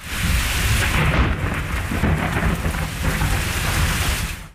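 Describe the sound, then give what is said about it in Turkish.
Heavy rain pours down with rumbling thunder during an evening thunderstorm in Ankara that flooded streets. A dense, loud, steady roar of rain and low rumble fills the whole stretch, with no voices. “Ankara'da gök gürültülü sağanak yağış dün akşam saatlerinde etkili oldu.”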